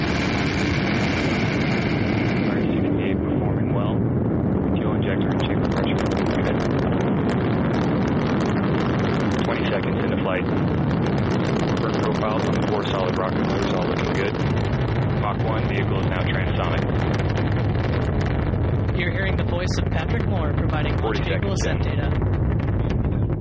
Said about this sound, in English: 6, 5, 4, we have engine ignition, 2, 1, and liftoff of the United Launch Alliance Delta IV rocket carrying the WGS-8 mission for the United States Air Force.